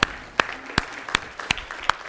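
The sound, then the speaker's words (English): Audience clapping in unison for people who serve at the table each week: six sharp, evenly spaced claps in a steady rhythm, each standing out crisply against a quiet background. “I really appreciate, I want to actually, let's clap for those who serve on the table for us week to week.”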